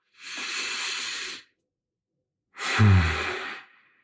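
A deep breath taken during a calm guided moment: a long airy hiss lasting about a second, a pause of silence, then a louder, longer sighing breath with a soft voiced undertone that trails away.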